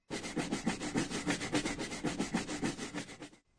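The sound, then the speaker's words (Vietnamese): Scrubbing to clean off dirt: many quick, even back-and-forth rubbing strokes in a steady rhythm, a brushy, abrasive sound that stops abruptly at the end. “Vâng, đây là tiếng cọ rửa. Goshi goshi để miêu tả việc cọ rửa cho hết bụi bẩn.”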